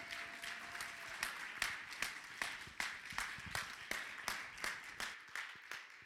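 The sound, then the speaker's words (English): A church audience claps in praise, many hands striking together in a steady, evenly spaced rhythmic beat. The sharp, regular claps continue at a moderate loudness throughout. “come on, let's give the Lord a hand clap of praise.”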